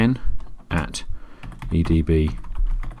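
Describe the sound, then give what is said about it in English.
Typing on a computer keyboard during a software setup walkthrough: quick, uneven bursts of key clicks spread across the few seconds. “I'm literally just going to click connect and type a specific user”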